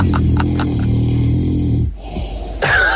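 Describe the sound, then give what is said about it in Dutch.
A man snores gently at night. A soft, low rumbling snore holds steady, falls briefly quiet, then a new breathy snore begins. “grappig is dat het is wel een soort lieflijke snurk of zo. Ja. Het is niet een hele agressieve.”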